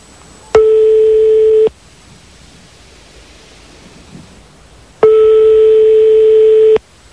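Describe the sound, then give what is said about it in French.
A telephone call goes through after a number is dialled, giving steady ringing tones on the line: two long, level beeps separated by several seconds of quiet hiss. “On est en train de faire le numéro de téléphone”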